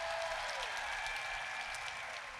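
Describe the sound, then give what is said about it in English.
Audience applause for a poet at a high school poetry slam, a faint, even wash of many hands clapping, steady throughout with a brief falling tone at the start. “Applaud the poet!”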